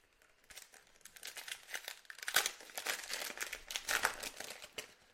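Crinkling of 2022 Optic trading card pack wrappers handled right at the mic: continuous crackly rustling that grows louder and busier in the second half, with sharp crinkle spikes throughout.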